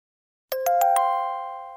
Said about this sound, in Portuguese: Tocou para a saída.